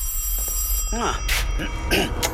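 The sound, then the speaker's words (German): A home telephone rings with warbling, trilling electronic bursts repeated in short pulses over a steady low background hum. “klingelte bei uns zu Hause wieder einmal das Telefon.”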